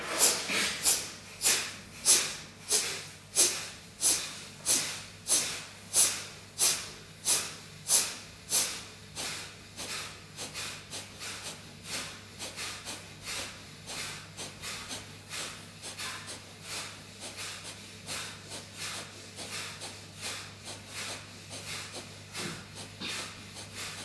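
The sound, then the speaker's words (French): Rapid rhythmic breathing in and out through both nostrils during a final round of a yoga breathing exercise: many forceful, hissing nasal exhalations in a steady beat, strong at first and then softer, over a low constant hum. “Dernière série, cette fois-ci, inspire, expire, deux narines.”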